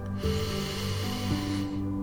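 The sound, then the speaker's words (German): One long, deep inhale is drawn through the nose into the belly. The breathy, hissing airflow starts suddenly, holds steady for about one and a half seconds, then fades out. “Und dann atme hier nochmal ganz bewusst tief durch die Nase in deinen Bauch ein”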